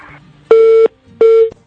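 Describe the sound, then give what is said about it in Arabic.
A telephone busy tone after a dropped call: two long, steady, mid-pitched beeps separated by a short silent gap. “يبدو أن الاتصال انقطع في انتظار أننا نعود نتصل بالمستمع”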